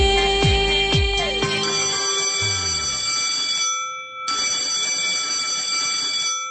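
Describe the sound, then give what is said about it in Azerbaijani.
School bell ringing with a loud, sustained metallic electronic ring and a few struck, decaying tones at the start. The ring breaks off briefly midway, then resumes until the end. “indi bu zəng 11 il eşitdiyiniz zəng kimi adi də gələ bilər.”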